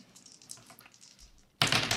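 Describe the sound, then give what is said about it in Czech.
Dice tumble across a table in a tabletop role-playing game. Faint light clicks come first, then a sudden loud clattering rattle near the end. “Kostky jsou vrženy.”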